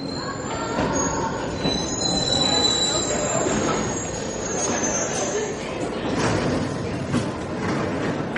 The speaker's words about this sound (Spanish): Espero. Llega el metro. Me preparo y cuando entro al vagón vuelvo a murmurar para mí,